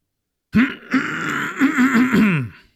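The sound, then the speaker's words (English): A person performs an exaggerated throat clearing, imitating someone's habit: one drawn-out, voiced, grumbling rasp that wavers in pitch for about two seconds, heard alone. “Doing my Ron throat clear.”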